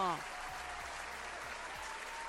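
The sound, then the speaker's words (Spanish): Applause breaking out after a call to clap, a soft continuous patter of hands heard at a low level, with a brief voice at the very start and faint thumps beneath. “¡Ay, un aplauso!”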